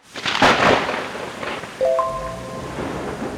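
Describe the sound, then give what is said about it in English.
Heavy rain in a thunderstorm while a car drives home: a steady hissing downpour with an early swell of rumbling noise, then a second rise in the wash of rain partway through. “it's raining cats and dogs yes it's quite a downpour this rain doesn't seem to be letting up”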